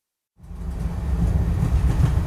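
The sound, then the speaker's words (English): A train rolls along the tracks with a steady, dense low rumble that swells in soon after the start and holds at an even level to the end, with no clear individual clacks. “Go ahead. Take a look around the train.”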